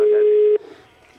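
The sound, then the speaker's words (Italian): A telephone rings with one steady, low electronic tone lasting about half a second, which cuts off abruptly and leaves a faint background hum. “Squilla il telefono.”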